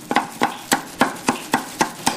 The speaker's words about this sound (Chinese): 剔出蟹肉，将其剁碎